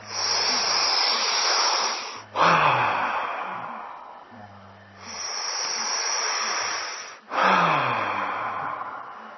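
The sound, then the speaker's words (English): Two deep breathing cycles during a guided breathing meditation. Each slow, airy inhale builds steadily and ends in a sudden forceful exhale, like a sigh or gasp, that tapers off gradually. “Focus on it while you breathe. Embody it.”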